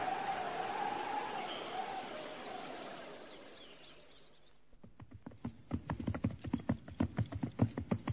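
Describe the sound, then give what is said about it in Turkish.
Horse hooves of an approaching rider enter after a stretch of steady hiss, then clop in a brisk, regular rhythm. Many hoofbeats follow and grow gradually louder toward the end. “İşte at üstünde biri bize doğru yaklaşıyor.”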